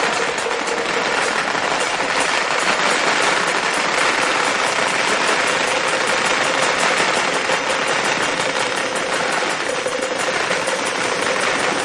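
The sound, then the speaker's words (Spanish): A string of firecrackers going off at a wedding procession: dense, loud, continuous crackling and popping that runs without a break for the whole stretch, with no voices. “Estalla una traca.”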